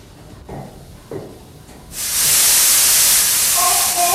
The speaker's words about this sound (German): Mein Gott, ein Dampfrohr ist geblasen.